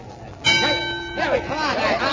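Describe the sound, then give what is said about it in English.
A boxing match bell rings to start a fight: one bright, clanging strike whose metallic tone sustains for under a second, then a man's voice starts talking over its fading tail. “And there's the bell.”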